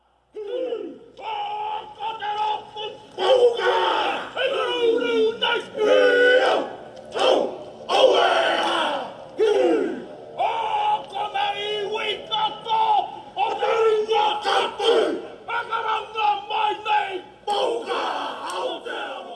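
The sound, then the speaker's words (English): Haka tribute chant performed by a biker gang in New Zealand. A group shouts in forceful, rhythmic bursts with short pauses between phrases, loud and chesty throughout. “That was the sound of the Haka tribute performed by a biker gang in New Zealand.”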